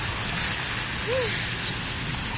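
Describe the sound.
Heavy rain pours down in a dense, continuous hiss that stays even and unbroken throughout, with no voices over it.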